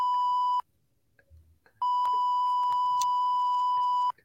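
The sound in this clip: A censorship bleep muting a spoken name: a steady, high-pitched electronic tone, first short, then after a pause a much longer one.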